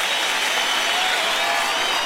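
Applause from a crowd at a Brazilian gathering, a thick, even wash of clapping that stays level from start to finish with no talk over it.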